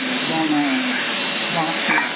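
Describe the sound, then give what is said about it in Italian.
Background noise from televisions left switched on in a home: a steady, muffled wash of hiss with faint voice-like tones running throughout, heard over a narrow-band radio or phone channel. “No, non sono in macchina, è che ci sono televisori accesi”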